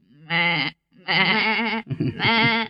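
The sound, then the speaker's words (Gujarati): Goat bleating three times in a row, each call loud and wavering, the second the longest, with short gaps between them. “આ તો બકરી બેન આવ્યા.”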